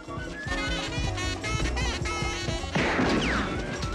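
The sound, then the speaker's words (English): A film gunshot and the bullet snapping an aerial mast come as a single sharp crash late in the scene, bursting over loud, dramatic music that fills the moments before it. “Harry climbs up the fire escape, aims his weapon, and fires off a shot.”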